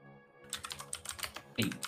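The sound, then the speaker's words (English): Typing on a computer keyboard during a tabletop game session: a quiet, rapid, uneven patter of key clicks with one slightly louder burst of strokes near the end, and no talk. “You're doing a lot of typing, boy.”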